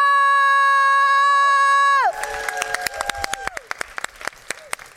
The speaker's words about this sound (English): please put your hands together loud and proud for our last speaker, D-Ro!